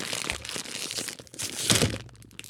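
Crinkling and tearing of packaging as the side of a package is torn open, a brief stretch of crackly rustling that peaks in a louder rip near the end.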